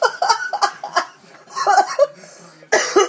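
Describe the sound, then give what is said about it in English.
A person with a lingering cough produces a broken series of short, harsh cough bursts, some throaty and voiced, with a louder burst near the end. “Oh, my cough's getting a bit better.”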